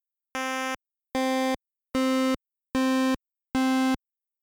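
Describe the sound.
Five buzzy rectangle-wave tones from a VRC6 sound chip, each at one of its new duty cycles, all at the same pitch and each lasting under half a second with silent gaps between. The first is slightly quieter.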